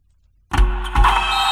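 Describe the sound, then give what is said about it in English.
Motorized blackout window shades start moving after a moment of silence, kicking in abruptly with a low thump and a steady whirring motor hum, surging again partway through and running on to the end. “Oh, no, I meant those blackout motorized shades.”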